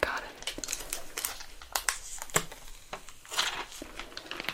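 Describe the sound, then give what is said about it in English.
Backing being peeled off a tattoo healing film, giving soft, irregular crinkling and crackling of thin plastic in short, uneven bursts at a fairly quiet level. “Yeah, they have the part in the center that makes it easy to peel up, but I like a challenge, so.”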